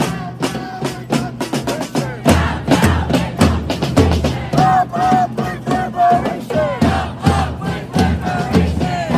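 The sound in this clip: Protest crowd chanting in New York City streets: many voices shout in loud, rhythmic bursts that rise and fall continuously throughout.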